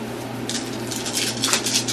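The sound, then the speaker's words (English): Nine dice are rolled for a tabletop game, a bright rattling clatter that starts after a short pause and continues unevenly to the end over a low steady hum. “Plus 7, so you roll 9 dice. 9, okay. Whoa, 9 dice.”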